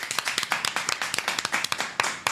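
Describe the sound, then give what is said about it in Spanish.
Applause for radio stations at a live celebration, with many overlapping hand claps in a dense, steady patter and sharper single claps standing out throughout. “un aplauso para estas radios también”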